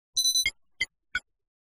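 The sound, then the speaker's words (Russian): A game-style system message chime: a bright electronic tone held briefly, then three short high pings at roughly even spacing, alone against silence. “Три системных сообщения появились перед глазами сразу же, как только Зангар коснулся двери.”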